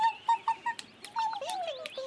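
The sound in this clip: A newly hatched, woolly penguin chick at a zoo calling in faint, high peeps: a quick run of short chirps followed by longer, falling cries.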